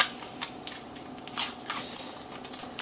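Crinkling and crackling of a paper wrapper being peeled unevenly from a stick of unsalted butter, with a few sharp rustles at irregular intervals and no talk.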